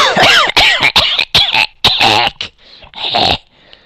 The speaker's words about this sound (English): Sounds pretty talkative. Got a little cough going there.